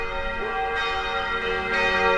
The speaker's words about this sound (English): The bells of the Church of the Sacred Heart of Jesus in Prague's Vinohrady district, calling the Catholic faithful to morning mass.